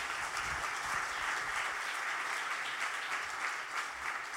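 Applause from a church audience welcoming a guest to the front: dense, even clapping that holds steady at moderate loudness for the whole span, with no voices over it.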